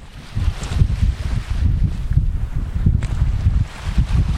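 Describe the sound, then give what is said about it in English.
Strong, steady wind blowing over the open sea on Nantucket Sound off Cape Cod: a loud, dense low rumble with gusty surges and rustling texture throughout. “On Nantucket Sound, just off the coast of Cape Cod, the wind blows strong and steady.”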